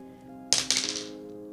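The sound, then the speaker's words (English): A twenty-sided die being rolled: a sudden clatter of a few quick, bright clicks as it tumbles, fading into a short rattle over a faint, steady tonal background. “here I'm gonna roll this twenty-sided die.”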